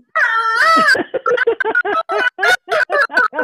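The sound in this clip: A human voice imitates a frantic rooster crowing, starting with a long, strained, high call and breaking into many short, choppy squawking bursts.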